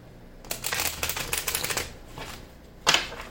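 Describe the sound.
Papery riffling of a tarot deck being split and shuffled: a dense, rapid flutter of card edges for about a second and a half, a softer short riffle, then a sharper final snap of the cards.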